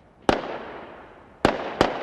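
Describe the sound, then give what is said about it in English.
Firecrackers bursting over the rooftops of a Berlin neighbourhood packed with bars after a football semifinal: three sharp, loud bangs with rumbling tails, one alone and then two close together. “a few lone firecrackers burst over the rooftops of Mitte, a Berlin neighborhood packed with bars.”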